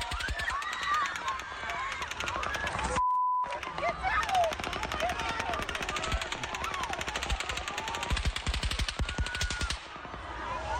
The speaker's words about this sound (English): It's, I think in the instances where we've seen or heard shooting, it's bam, bam, bam, even if it's fast. That's a machine gun.